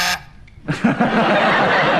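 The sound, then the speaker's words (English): A game show buzzer is pressed during a panel game, giving a harsh, sustained electric buzz that holds at a steady level after a short quieter gap. “The things that I could most easily do without are buzzers in the hands of people like Kenneth Williams, Derek Nimmer, Andre Manning.”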